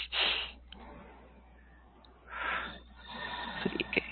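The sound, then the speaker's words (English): A deep breath taken during an energy-healing session, heard as a few breathy, rushing bursts of air with quieter gaps between them, the last one rougher and more uneven. “Take a deep breath.”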